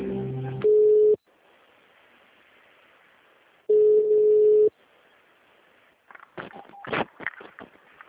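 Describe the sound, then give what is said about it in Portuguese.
Telephone line tones play while a bank call is being transferred: two steady beeps separated by quiet hiss, followed by a short stretch of voice at the end. “Transferindo a sua ligação.”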